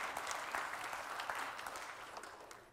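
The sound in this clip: A church audience applauds to welcome a young reader coming up to read the scripture, a steady wash of clapping from many hands that fades slightly toward the end.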